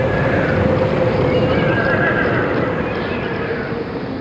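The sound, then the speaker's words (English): Horses neigh and hooves clip-clop during a lifeboat launch, heard as a dense, steady wash of noise running through the whole stretch, with whinnies rising above it. “100 years ago, it was a very different story. Then the lifeboat was launched using horses.”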